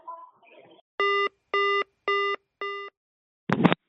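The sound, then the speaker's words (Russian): Telephone busy signal after the other party hangs up: four evenly spaced beeps at one steady pitch, each about a quarter second long, then a short noisy click at the end. A brief faint voice comes before the tones. “Трубку бросила”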